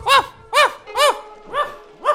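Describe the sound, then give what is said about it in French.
Small black-and-white dog barking: five sharp, high-pitched yaps at an even, steady rhythm, each brief and clear with short silences between them. “Combien peut ce chien dans la vitrine? Ce joli petit chien noir et blanc.”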